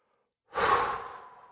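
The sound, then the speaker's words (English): A single loud, breathy exhale through the mouth, like a sigh, starts abruptly after silence and tapers off gradually over about a second. “Inhale through the nose and exhale loudly through the mouth.”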